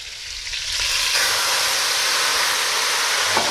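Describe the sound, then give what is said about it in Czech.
Sizzle of slivovitz plum brandy poured into a hot pan of meat before flambéing: a loud, steady hissing fry that swells within the first second and holds to the end. “Tak mám tady slivovice, mi tady stála, jak jsme si dělali čaj, tak já tam trošku slivovice a oflambuju to. Takže zalijeme”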